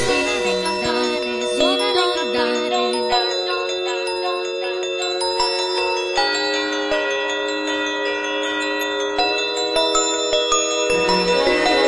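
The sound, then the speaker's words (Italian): Bright ringing bell tones play a simple children's round melody about ringing bells, with many evenly struck notes in a steady rhythm and long shimmering overtones. No voices are heard. “Suona le campane, suona le campane, din don dan, din don dan.”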